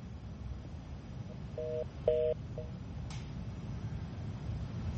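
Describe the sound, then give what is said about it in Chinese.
Telephone tones as a call tries to connect: a few short electronic two-tone beeps, faint over a steady hiss of line noise, with no talking. “好的，张先生的电话呢现在可能还没连上。”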